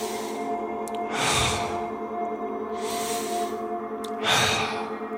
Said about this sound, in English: Inhale one direction, exhale the other.